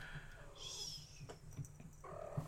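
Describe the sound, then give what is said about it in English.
A cat gives a couple of faint, thin meows, one early and one near the end, with soft rustling between them. “That is a cat. Cat says hi.”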